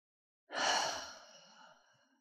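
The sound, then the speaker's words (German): One deep, audible breath during a guided relaxation exercise, a breathy sigh-like sound that swells quickly and then fades slowly over nearly two seconds, soft and alone with no talk. “Und atme hier tief ein und aus.”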